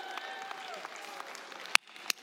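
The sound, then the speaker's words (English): Church audience applauding, a light, steady patter of clapping at a modest level with sustained tones beneath it and two sharper claps standing out near the end. “It's okay to clap for that.”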